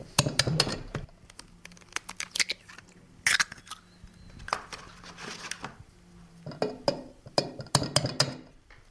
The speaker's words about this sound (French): Ensuite, nous allons casser les 4 œufs dans la farine.